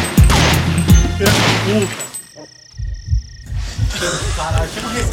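Gunfire in a Brazilian Portuguese audio skit, a shootout at the entrance of a hillside favela: a few loud, sharp shots crack early, then a rapid burst of lower, thudding reports follows.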